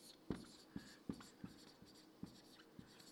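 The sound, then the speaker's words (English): Scratchy strokes of writing down words, a steady series of short, soft scribbles repeating at an even pace over a faint hum, with no talking. “Well, let's just write down some contrast, because it gives us a really strong picture of this evening. Let's just go.”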